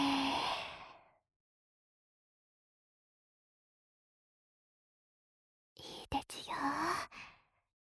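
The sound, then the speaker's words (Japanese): A deep breath let out in one long, soft sigh, followed after a long silence by a short burst of breathy, faintly voiced sounds. “はい、大きく息を吸って、吐いて、”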